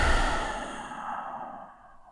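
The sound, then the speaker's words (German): A single deep breath in and out, taken slowly and calmly during a guided meditation; a soft, breathy rush that starts loud and gradually fades away. “nimm erstmal einen tiefen Atemzug ein und aus”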